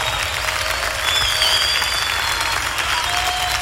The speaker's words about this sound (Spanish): aplaudimos a ti, Jesús